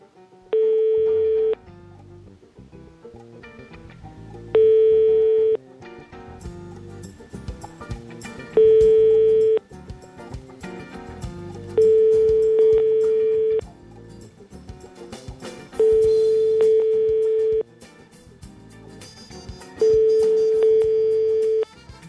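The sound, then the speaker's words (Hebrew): A telephone rings six times, each ring a steady single-pitched tone lasting one to two seconds, evenly spaced with gaps of a few seconds, over a busy layer of other background sound. “וואו, למי זה? למי זה? למי זה הטלפון?”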